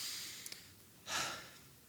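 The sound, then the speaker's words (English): A single short, soft breath: one brief breathy rush in near silence, preceded by a couple of tiny clicks. “every time I've said it unintentionally, I just take a deep breath. I go,”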